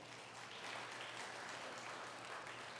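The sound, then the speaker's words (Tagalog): Faint, steady applause from a church audience clapping for the Lord during a sermon, a soft continuous patter of many hands with no clear peaks or breaks. “Palakpakan po natin ng Lord.”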